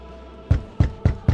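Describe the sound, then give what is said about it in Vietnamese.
Someone bangs loudly on a door with four heavy, booming blows. The low thuds fall at a roughly even pace, each dying away quickly, with no voices. “Rầm rầm, tiếng đập cửa vang lên ầm ầm khiến hắn giật mình.”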